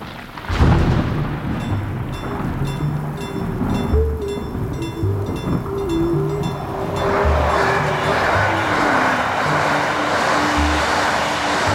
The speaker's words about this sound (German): Es regnet.